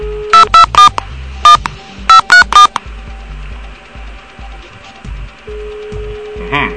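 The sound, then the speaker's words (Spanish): Telephone number being redialed after an unanswered call, with seven short touch-tone beeps in uneven groups over a low, steady hum. “Nuevamente no nos contesta la llamada, vamos a insistir.”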